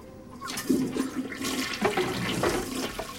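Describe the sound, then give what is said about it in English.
A toilet flushing produces a rushing, gurgling wash of water with a few louder surges across about three seconds, heard alone without talk. “Still later, he flushes a toilet and shoves it back into a compartment.”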